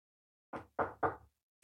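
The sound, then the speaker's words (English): Knocking on wood: three short, evenly spaced dull raps in quiet, followed by the start of a louder fourth knock at the very end. “Got to knock on some wood there.”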